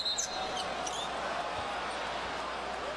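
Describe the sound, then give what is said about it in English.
A basketball is dribbled on the court during a Knicks–Raptors NBA game; the faint bounces are mostly buried under a steady, loud roar of arena crowd noise. “Barnes on the dribble.”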